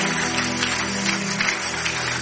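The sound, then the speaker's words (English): A worshipping audience gives God another round of applause after a prayer. The clapping is dense and continuous and keeps an even loudness across the whole stretch. “I think we should give God another applause.”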